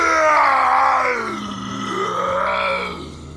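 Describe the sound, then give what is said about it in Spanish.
A tormented man lets out a loud, drawn-out howl, one continuous anguished wail lasting over three seconds that falls in pitch, rises again and then trails off. “corrió a su encuentro y se inclinó delante de él. Dando un alarido, gritó:”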